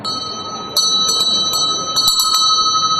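A bell rings loudly with bright, sustained tones, struck repeatedly so that several sharp strikes land over a steady, shimmering hum.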